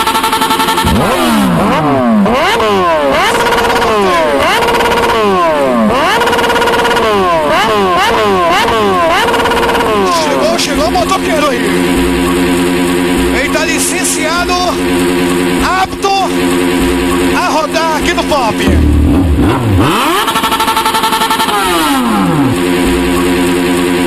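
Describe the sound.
A motorcycle engine revving hard at a live outdoor sound-system party in a field: many quick rising throttle blips in a steady rhythm, then longer swelling revs, loud and continuous under music and voices.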